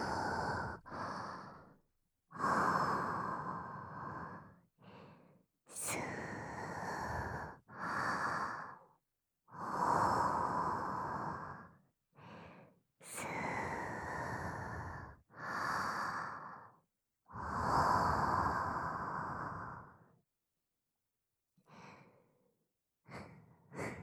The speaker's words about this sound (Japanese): ほら、落ち着いて落ち着いて、深呼吸。